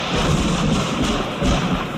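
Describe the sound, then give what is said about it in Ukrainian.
A loud, steady rumble of thunder, broad and noisy with weight in the low end, rolling on for about two seconds with no voices. “Та в цю саму хвилину загримів гром.”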